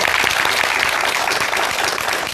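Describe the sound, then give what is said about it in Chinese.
Loud, dense audience applause welcomes a professor as a guest at a classical Chinese poetry recitation event. The clapping is steady and sustained throughout, without a pause. “我们用热烈的掌声欢迎我们的活字典姚教授。”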